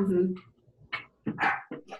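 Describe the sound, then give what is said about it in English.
A pet dog barks and yips in short, sharp bursts, several quick barks bunched in the second half, moderately loud and mixed with a voice. “And of course my dog has to be barking in the background.”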